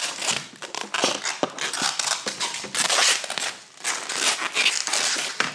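Sticky tape is pulled off the roll and wrapped around cling-filmed toys, making a steady stream of crackly ripping and crinkling with many overlapping tears and brief dips in loudness.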